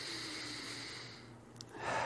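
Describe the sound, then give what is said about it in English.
Deep breath drawn in and let out, a soft airy rush that stays even before a slightly louder exhale near the end, alone and quiet. “So let's take a deep breath together. And one more.”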